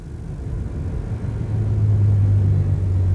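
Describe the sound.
Low car engine rumble from a high-performance machine rated at 352 horsepower, swelling gradually and settling into a steady, louder low drone in the second half, with no voices.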